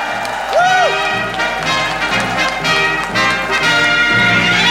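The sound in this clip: Applause and cheering from a theatre audience as a comedian is welcomed to the stage at a live show in London's Leicester Square Theatre: loud, sustained clapping with whoops and a rising whistle early on, with a voice talking through it.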